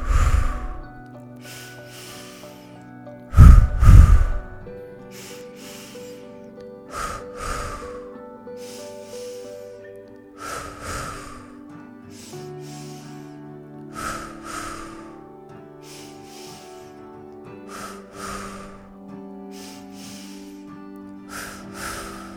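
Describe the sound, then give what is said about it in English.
Pulse breathing, drawing air in through the nose and pushing it out through the mouth: forceful breaths repeated in a steady rhythm, one loud burst early on, over soft sustained background tones. “Starting our final round of this pulse breath. In through the nose, out through the mouth.”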